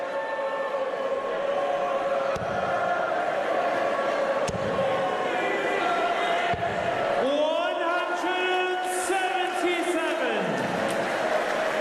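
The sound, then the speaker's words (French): A darts crowd in Blackpool raises its voice in a sustained, steady roar with a chant-like tone rising and later falling, under continuous commentary. “Et le public de Blackpool qui donne un peu de la voix.”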